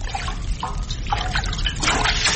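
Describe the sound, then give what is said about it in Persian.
Water sloshes and trickles as a large pot of boiling water is stirred. The liquid churns continuously, with a few louder splashing surges. “زن نزدیک یک دیگ بزرگ پر از آب جوش استاد بود و شورش می داد.”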